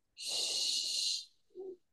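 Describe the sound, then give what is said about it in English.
A person hisses like a snake to demonstrate a cow-calling technique: one steady, airy hiss lasting about a second, then a brief, low voiced sound after a short gap. “I always tell people to hiss like a snake. So you're literally going,”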